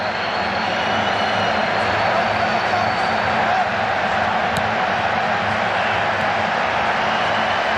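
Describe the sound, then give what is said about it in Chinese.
Football fans boo in a stadium during a Saudi Arabia national team match, reacting to repeated ineffective possession. A loud, steady crowd roar persists throughout without clear breaks. “沙特队在一个边路连续无效的控球也引起了现场球迷的嘘声”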